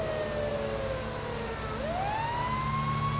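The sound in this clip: A police car siren from a video game, the car responding code 3, wails continuously. Its tone slides gradually lower, then sweeps back up and holds at a higher pitch, with no voices over it.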